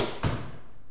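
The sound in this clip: Arrow shot from a bow striking the target in archery, a single dull thud followed by a fading wash of noise.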